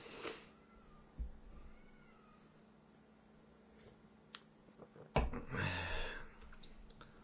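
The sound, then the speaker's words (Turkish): Pet cats meow faintly a few times amid scattered light clicks and soft thumps, followed by a louder rustling burst toward the end. “Kedilerim aşılı. İkisi de aşılı.”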